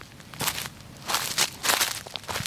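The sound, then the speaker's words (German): Footsteps crunch across a dry, rock-hard, dusty deciduous forest floor strewn with prematurely shed branches and fallen leaves. The steps come as a steady series of crisp, crackling treads, with rustling in between. “Wenn man heute auf dem Waldboden läuft, also gerade in Laubbeständen, das ist zum Teil steinhart und staubig und man hat vorzeitig abgeworfene Äste, die auf dem Boden liegen oder auch das Blätterwerk auf dem Boden.”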